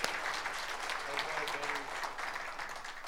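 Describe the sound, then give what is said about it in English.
Audience applause with dense, steady clapping throughout, and a voice briefly audible over it. “How about a hand for our prop? Yay!”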